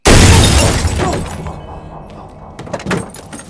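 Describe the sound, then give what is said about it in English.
A brick shatters a car windscreen: a loud, sharp, crashing burst at the start that decays into scattered rattling, with a few smaller impacts near the end. “A brick shatters his windscreen.”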